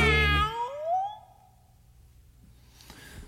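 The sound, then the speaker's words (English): A cat's meow: one loud, drawn-out call whose tonal glide rises in pitch before fading, followed by near quiet with faint noise. “I think kitty cats are funny. How about you? Chasing strings and imaginary things, always with a mew, mew.”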